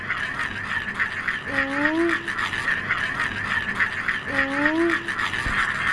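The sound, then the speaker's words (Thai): A traditional Thai spinning toy called a chak chan whirs with a steady buzzing drone and a strong held tone, and brief voice sounds rise over it twice. “เขาตั้งชื่อจักรจันทร์เพราะเสียงมันเหมือนจักรจันทร์เหรอครับ”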